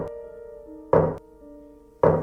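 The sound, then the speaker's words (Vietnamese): Two heavy knocks on a door, an eerie knocking heard through a phone call. Each is a sharp, dull thud, spaced about a second apart, over a steady low droning tone. “Có tiếng gõ cửa truyền tới.”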